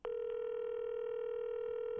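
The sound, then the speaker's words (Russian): A telephone ringing tone plays while the caller waits for an answer. It is a single steady, buzzy tone that holds unbroken for the whole stretch, fairly faint and alone. “Гудки. Как они действуют на нервы, когда долго не решаешься позвонить и вдруг стоишь уже с телефоном в руках?”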